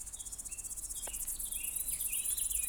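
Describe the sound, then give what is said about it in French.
Crickets chirp in a dense, continuous high-pitched trill, with fast, regular pulses holding steady and fairly faint throughout, alone with no voices. “Des grillons.”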